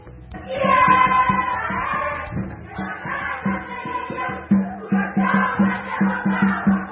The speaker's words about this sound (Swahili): Na hizo ni sauti za baadhi ya washiriki hapa katika tamasha hili la 12 la utamaduni wa Kenya hapa Marekani, ambapo wamekusanyika kwa maelfu hapa jijini Atlanta.